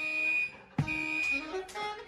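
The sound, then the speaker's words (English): A smoke detector alarm goes off as a steady, piercing high tone. It cuts out briefly and then resumes, while fainter lower tones shift underneath. “Jazz musicians can feel the vibe of anything, including a fire alarm going off, you know, a smoke detector.”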